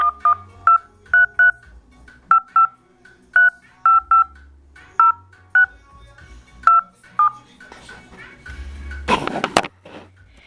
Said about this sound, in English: Please enter the telephone number you wish to dial now, or press *0 to recharge.